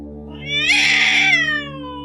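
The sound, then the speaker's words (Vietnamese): A wild cat meowing at night beneath a tree gives one long, drawn-out meow that rises in pitch, holds, then falls away, heard alone over a steady low hum. “Một con mèo hoang với đôi mắt xanh lè trong bóng tối, dưới một gốc cây cách Liên chừng 7 bước chân, vừa kêu vừa nhìn chằm chằm vào chị.”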